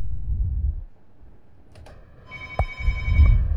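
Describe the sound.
A telephone rings during a call attempt: a brief electronic ringtone of about a second, with steady high tones, over low background rumble and a faint click just before it.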